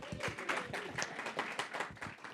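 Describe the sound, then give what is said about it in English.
Audience applause for two volunteers called up beside a presenter: a brisk patter of many hand claps, steady and moderately loud throughout, with no break in the clapping. “Round of applause for the 2 volunteers.”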